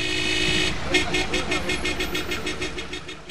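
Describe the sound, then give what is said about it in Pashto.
Car horns honking: a sustained blast followed by a rapid series of many short, loud, pulsing honks with a steady rhythm. “د موټر لوړ هارنونه په ټولو خلکو په تیریبیا په ناروغه کسانو ډیره بدی غیزی کوي”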